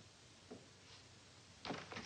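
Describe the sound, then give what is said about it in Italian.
A house door being shut against the cold: faint and quiet overall, with a soft early bump, then scraping movement and a couple of brief knocks as it closes at the end. “Ma chiudo quella porta che si gela in casa.”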